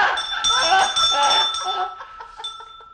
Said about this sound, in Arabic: أنا صوت اتنبح لكن معايا الجرس. أيوه الجرس هو. أنا بتاع الجرس.